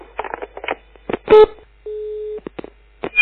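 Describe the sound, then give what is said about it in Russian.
Telephone tones as someone dials to call the police: a short beep, then a steady tone held for about half a second, with people talking around the tones. “Я мне сейчас наряд милиции вызову.”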